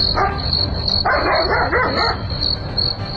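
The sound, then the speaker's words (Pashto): A dog barks at night in a few sharp bursts, with a steady high cricket trill running underneath the whole time. “نه پوهیږم چې دا سپی ولې غاپي.”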